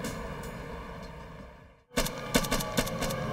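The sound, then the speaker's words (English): Gunfire in a firefight between heavily armed drug runners and police in the British Virgin Islands: a steady rumbling bed drops out briefly, then several sharp, loud shots crack out at irregular intervals over continuing noise. “In the British Virgin Islands, a firefight erupts between heavily armed drug runners and the Royal Police”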